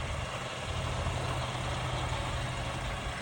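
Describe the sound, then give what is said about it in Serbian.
A MAN TGX 520 D30 truck engine idling: a steady, low, continuous rumble with a broad mechanical hum that holds an even level throughout, with no voices. “Ali ovo nije Scania. Ovo je Mandzuk. Evo ga. TGX 520 D30.”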